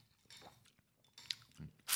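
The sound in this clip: Chewing and soft crunching while tasting thin rice noodles with slices of beef cooked not quite through, red onion, fresh herbs and a squeeze of lime; a few short, quiet mouth bursts separated by brief pauses.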